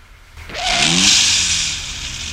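A car drives off: the engine revs up with a rising tone, then a broad rushing roar swells and holds before slowly easing down, loud against a quiet background.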